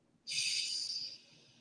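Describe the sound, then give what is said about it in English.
One deep inhale during a guided grounding meditation: a soft, airy hiss that rises abruptly, holds for about a second, then tapers away. “Let's take a deep breath in again.”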